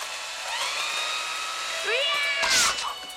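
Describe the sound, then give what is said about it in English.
An electric mixer whirs as it is jabbed repeatedly, a steady high motor whine that twice revs upward in pitch, with a sharp, noisy burst near the end. “Barbara pitches the gun, reaches over, and takes aim with an electric mixer. She repeatedly juts it at Kenny's face.”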